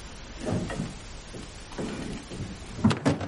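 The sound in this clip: A key turns in a wardrobe lock and the wardrobe door is opened: soft, muffled knocks and creaks build gradually, ending in a couple of sharper clicks, with no talking.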